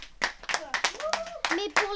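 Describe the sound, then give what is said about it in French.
Hand clapping celebrating competition medals, two gold and five bronze: a few sharp claps mixed in with talking voices. “Ça mérite des applaudissements.”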